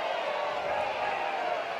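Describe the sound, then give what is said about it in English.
Spectators at a college softball game send up a steady crowd rumble, a continuous, even murmur of many voices with no distinct cheers or peaks. “Crowd's rumbling, but I clocked that immediately.”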